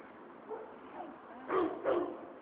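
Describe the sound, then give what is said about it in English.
Loose dogs bark faintly, giving a few short yips over a steady noise floor. The last two barks are the loudest. “I think those are loose dogs.”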